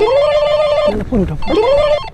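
A telephone rings with a melodic electronic ringtone: a sustained tone phrase, a brief burst of quick warbling notes, then the tone phrase again, fairly loud.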